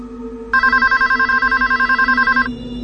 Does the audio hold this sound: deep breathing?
no

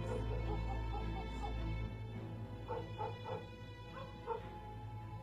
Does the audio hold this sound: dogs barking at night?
yes

